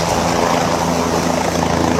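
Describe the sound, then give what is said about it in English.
Helicopters flying during a flood rescue search for survivors in Nepal, a loud, steady rotor and engine roar with no breaks or changes. “Those helicopters still looking for survivors.”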